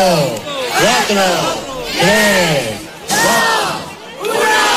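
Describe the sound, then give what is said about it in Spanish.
A large crowd cheers and shouts at the Christmas lights switch-on in Antequera, with loud voiced surges rising and falling in several waves. “Y a todo esto, Antequera que da ya la bienvenida a la Navidad, así sonaba ayer tarde la inauguración del alumbrado especial.”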